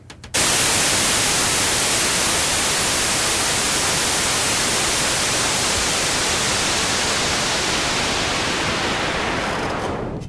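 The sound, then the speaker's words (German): Loud, steady white noise hiss alone, fed through a low-pass filter whose cutoff is swept down from the top of the audible range, changing little at first. “Das mache ich jetzt mal, indem ich von 20.000 Hertz an abschneide und zu 0 Hertz runtergehe. Und halt eben eine White Noise hab und dann immer weniger von den oberen Frequenzen höre.”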